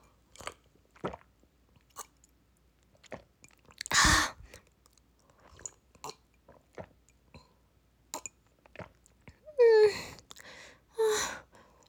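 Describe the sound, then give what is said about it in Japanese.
Tea being drunk on a hot day: sparse soft sips and mouth clicks, one long breathy burst like a gulp or exhale, then later brief gasping breaths between quiet swallowing sounds. “ちょっと水分取る。さっきのお茶飲むね。”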